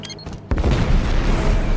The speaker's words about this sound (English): That was a nice shot, though. C4!